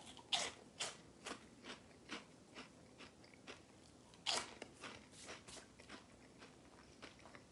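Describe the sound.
Crunchy ranch fries bitten and chewed: a loud first crunch, then many quieter, rhythmic chewing crunches and another sharp bite partway through, with no talking.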